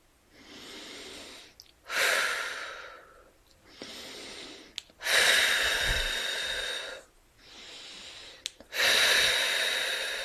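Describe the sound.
Deep breathing in and out three times, each slow inhale followed by a louder, longer exhale, the breaths rushing and hissing with short pauses between, close and clear with no talk.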